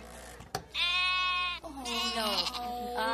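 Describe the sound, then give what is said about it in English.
Sheep bleat at a market in two long, wavering, nasal cries, the first shorter and the second drawn out and shifting in pitch. “Quiero una oveja pequeñita. ¿Una oveja pequeñita? Sí. Bueno, pues tengo como 20.”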